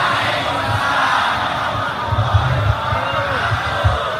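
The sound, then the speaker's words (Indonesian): A crowd answering an Islamic greeting in unison, a loosely blended chorus of many voices that swells briefly and stays fairly subdued. “Dari bunyi sambutan salamnya kok ketoke urung ngombe kopi luwak.”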